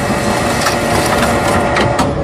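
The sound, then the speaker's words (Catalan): A printer runs as it feeds out a sheet of paper, giving a loud, steady mechanical whirring and rattling that continues without pause. “És el so d'una impressora, d'allà surt un paper amb la imatge de Mourinho”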